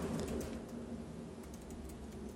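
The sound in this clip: Faint typing on a computer keyboard, a quiet patter of scattered key clicks over a soft background hiss.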